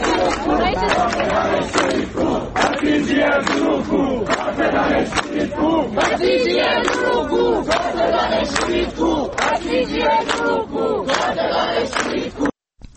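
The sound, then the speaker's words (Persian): Students at the Tehran University engineering faculty chant at a protest. The massed voices are loud and fast, with tightly repeated rhythmic phrases running steadily throughout before stopping abruptly at the end. “دانشگاه تهران، دانشکده فنی هم تجمع کردن. صدای دانشجویان دانشکده فنی رو بشنویم.”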